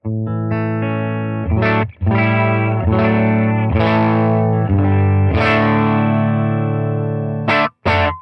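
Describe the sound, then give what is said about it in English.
Clean-ish tone of a Stratocaster electric guitar with low-output pickups through an amp that breaks up slightly, captured by a ribbon microphone. Many strummed chords and notes ring out loud and sustained, with brief pauses between them. “It's clean-ish. It'll break up a little bit. These pickups in my Strat here are pretty low output, so they're not going to hit the front of the amp super hard.”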